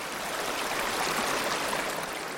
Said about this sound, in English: The water gets louder, flowing through one ear and out the other.